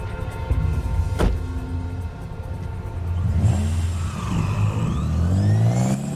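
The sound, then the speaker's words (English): A car engine idles and then revs as the vehicle drives off, its low steady hum climbing in pitch and growing louder over the final seconds. “Still with his gun raised, DK backs away to his car and gets in.”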